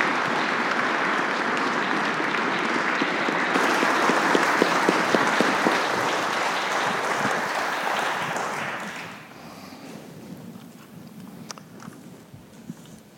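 A church audience applauds to welcome a reverend, warm sustained clapping for about nine seconds that then drops off sharply into a few scattered, quieter claps.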